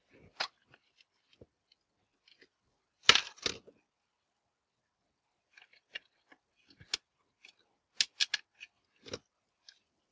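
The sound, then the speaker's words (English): Someone fiddles with the screws of a power cable connector. Faint, sharp clicks and small metallic scrapes come in irregular clusters, with a louder burst of rattling near the start and quiet gaps in between. “power cable connector. Fiddling with the screws.”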